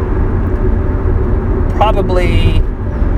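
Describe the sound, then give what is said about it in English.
Steady low road rumble inside a moving car, a continuous droning hum that stays at an even level throughout, with a brief higher-pitched chirping sound near the middle. “I can't check that while I'm driving.”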